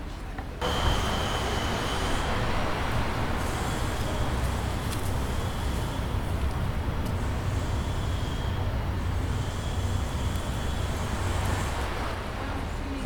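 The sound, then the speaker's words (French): Road traffic noise rises up to the stairs of the Fontaine du Lion, a city stairway near the Isère river. It is a steady, loud roar with no distinct events and no voices. “Là, tu vois, on entend beaucoup le bruit de la circulation. Et en plus on monte, plus on entend le son de l'Isère.”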